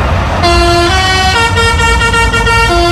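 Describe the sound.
A truck horn plays a children's song melody, sounded by a lorry hauling parts for a big wheel being built at a fair; loud, brassy horn notes step up and down in a quick tune.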